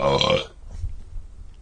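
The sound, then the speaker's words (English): A woman lets out one loud, deep burp that lasts about half a second, then fades to near silence. “Burped Mom.”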